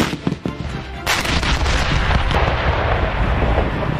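Artillery gun firing during a live-fire training drill at a target area: a heavy, sharp blast followed by a long, loud rolling rumble that fills the rest of the moment.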